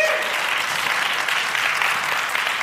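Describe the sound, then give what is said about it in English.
Audience applause as guests, including a pastor, are welcomed onto a stage: loud, even, continuous clapping with no pauses from start to finish. “And so let's welcome them up right now. You can give them a hand.”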